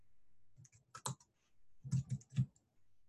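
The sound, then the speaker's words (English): Soft typing on a computer keyboard: a few scattered clicking keystrokes in two small clusters, faint and alone without voices. “Let me just type something in here.”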